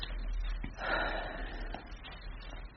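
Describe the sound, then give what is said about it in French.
A single audible breath drawn in, a soft airy rush that swells briefly and fades, over a steady low hum with no talking. “Attends, j'inspire.”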